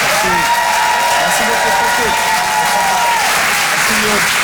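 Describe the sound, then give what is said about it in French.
Loud, continuous audience applause with cheering at the Chanson Comedy Club as a comedian finishes a set, holding steady throughout while voices talk over the clapping. “Faites du bruit pour Pierre Tézou.”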